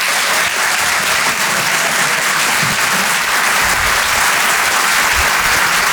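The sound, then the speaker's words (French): A live comedy show audience applauds a comedian with dense, steady, loud clapping that holds evenly for the whole stretch, with no voices on top. “Vous pouvez l'applaudir très fort, Miri sur Rire et Chanson. Bravo Miri.”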